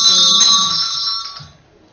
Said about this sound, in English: Go ahead, ring your bell.